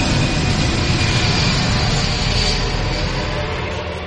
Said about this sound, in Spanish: un vuelo chárter de Mombasa a Israel despega con 200 turistas que vuelven a casa.